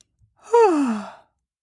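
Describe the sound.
A single drawn-out human yawn, voiced and sliding steadily downward in pitch. It lasts under a second and is heard alone, with no other sounds.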